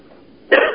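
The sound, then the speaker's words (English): A person almost choking gives a short, harsh cough that runs into throat clearing, one abrupt burst after a near-silent start. “Oh, excuse me. Oh, opened my mouth just thinking, almost choked.”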